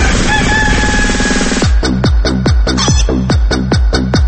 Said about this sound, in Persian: خب بالاخره صدای خروس ما رو هم شنیدید، خروس بامدادی صبحانه با خبر.